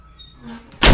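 A door slammed shut, landing as one sharp, loud thud at the very end after a second of low background hum.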